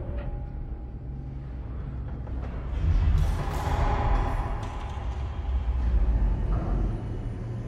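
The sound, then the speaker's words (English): An elevator climbs a tall, sheer shaft in a film scene, giving a steady low mechanical rumble and hum that swells louder around the middle and stays broad and constant to the end, with no voices. “The elevator continues up its vertiginous sheer shaft.”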